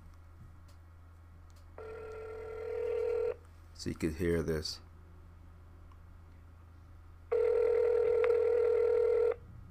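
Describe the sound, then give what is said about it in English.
Ringback tone on speakerphone from a call to a fraudulent number claiming to be in Marathon, Florida: two long, steady ring tones with a brief burst of speech between them. “give them a call so you could hear what happens. Okay, here it is. It's the number claims to be in Marathon, Florida. Okay, let's put this on speaker”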